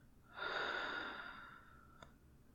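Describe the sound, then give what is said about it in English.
A slow, deep breath taken during a guided relaxation exercise: one soft, airy breath swells, then fades gradually over about a second. It is quiet and heard alone, with a faint click afterward. “one last breath, in, out.”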